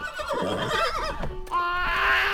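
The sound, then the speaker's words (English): A pony whinnies loudly and alone, a shaky, wavering neigh that settles into a steadier, sustained tone toward the end. “Oh, yeah, you like that, sweet girl? You like the pony?”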